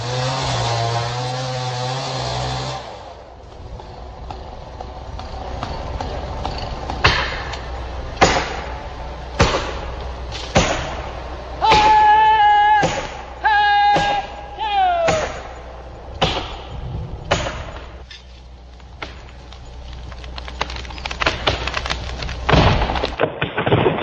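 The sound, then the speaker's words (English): Felling a giant Douglas fir in old-growth forest: many sharp knocks, cracks and thuds at irregular intervals, some in quick clusters, over a low steady rumble. “Sound which many of us hope will become a sound of the past in the remaining old-growth forest, felling a giant Douglas fir.”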